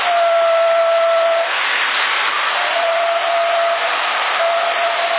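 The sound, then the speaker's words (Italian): A thin, steady whistle tone comes over a CB radio link in Sassari, held above continuous band-limited hiss. It cuts out for about a second partway through, then returns and holds to the end. “ho sentito il fischio da parte tua”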